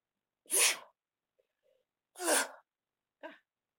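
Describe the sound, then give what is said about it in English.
Two loud, sharp sneezes about a second and a half apart, followed by a shorter, softer sneeze-like burst. Silence falls between them and no one talks. “sneezes”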